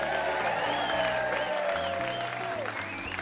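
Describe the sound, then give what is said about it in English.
A studio audience applauds with steady, continuous clapping throughout, music playing beneath it. “Another great evening, another great audience. Audience, give yourselves a hand.”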